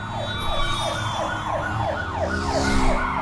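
Police car sirens wail in a car chase video game, a loud, rapid yelp that rises and falls repeatedly at a steady pace over a continuous low rumble.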